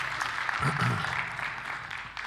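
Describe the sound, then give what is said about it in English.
Audience applause welcoming a pastor to the stage, a steady wash of clapping that carries on evenly while a voice speaks briefly over it. “Would you please put your hands together and welcome Pastor John Talbert.”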